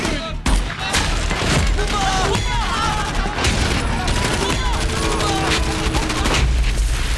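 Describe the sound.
Heavy gunfire breaks out after a firing order in a combat scene, a dense, continuous fusillade of overlapping shots and thuds that stays loud throughout, with faint voices mixed in beneath the shooting.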